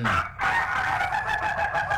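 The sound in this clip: A rooster crows: one loud, strained, sustained call that fills the whole moment.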